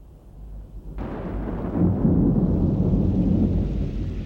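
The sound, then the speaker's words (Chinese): A deep, rolling rumble of thunder from an approaching storm. It comes in with a sudden surge and then holds as a loud, sustained roar that swells slightly. “快点进去吧，暴风雨快来了。”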